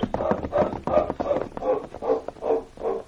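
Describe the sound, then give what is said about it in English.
Hoofbeats of horses being mounted and ridden away, a steady, rhythmic clip-clop of several even, muffled strikes that carry on throughout. “Come on, let's mount and ride away from here. Nice, steady there, Morty. All right, get up. Get up.”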